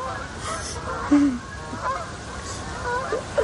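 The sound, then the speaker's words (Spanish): Honking calls from a flock of ducks flying past in formation, a few short nasal honks rising briefly over a low, steady outdoor background with no talk. “Una bandada de ánades pasa en formación.”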